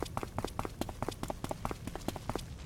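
Footsteps of a character walking forward and climbing a ladder in a video game, a fast, even run of many crisp, evenly spaced steps at moderate volume.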